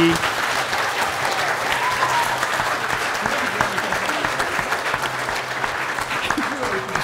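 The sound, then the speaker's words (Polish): Enthusiastic applause for the guests at the finale of a tabletop role-playing game session. Continuous, dense clapping stays at a steady level throughout, with faint voices mixed in. “Wielkie brawa dla gości!”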